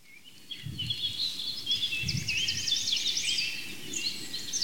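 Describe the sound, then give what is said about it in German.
Songbirds such as a blackbird, robin and blackcap sing outdoors in quick, high, varied trills and warbles, fairly soft and growing busier after the first second, with a few low muffled bumps underneath. “begleiten uns die ganze Zeit, seitdem wir hier unterwegs sind. Die Amsel, das Rotkehlchen, die Mönchsgrasmücke,”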